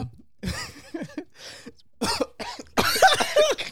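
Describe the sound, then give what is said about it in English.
A person laughs, and the laughter turns into coughing: a few short voiced bursts at first, then louder, harsher coughs in a rapid cluster. “Laugh into the cough is crazy.”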